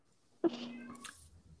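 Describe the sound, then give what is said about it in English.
A house cat gives a single short, fairly faint meow that rises briefly and then trails off. “there goes my cat again.”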